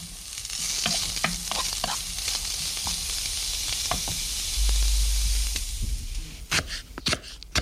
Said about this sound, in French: J'ai commencé à faire venir à feu doux. Feu moyen, tous les légumes et je rajouterai en dernier mes tomates.